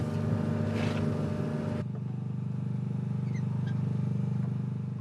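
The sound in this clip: A motorboat engine drives a boat slowly forward at a sea farm where hundreds of conch shells hang from lines. The engine gives a steady low drone with a throbbing hum, and its texture shifts partway through. No one speaks.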